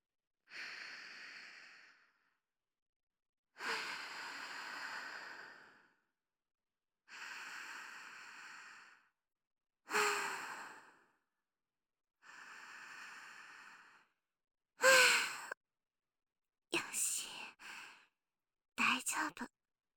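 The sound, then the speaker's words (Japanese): A person takes slow, deep breaths in a row, about eight airy inhales and exhales spaced a couple of seconds apart. They are soft and breathy, and the last few are shorter and sharper. “深呼吸してもいいですか？”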